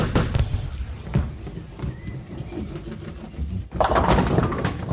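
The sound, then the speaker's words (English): A bowling strike: the ball rumbles down the lane with a few dull thumps, then slams into the pins in a sudden, loud clatter near the end. “Hey, way to go, Trusty. That's another strike. You're on fire today.”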